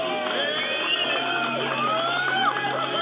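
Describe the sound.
Crowd cheering, whooping and shouting at a live cream corn wrestling show, a dense, continuous din of many voices without pauses.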